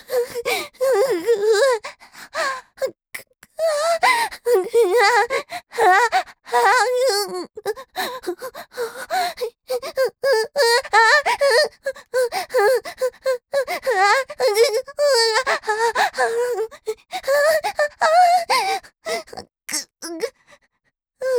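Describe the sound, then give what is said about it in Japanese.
Close, intimate breathing into the ear: heavy breaths blending into voiced moans and gasps, loud and nearly continuous, broken only by brief pauses. “君の息遣いが耳全体に当たってる。”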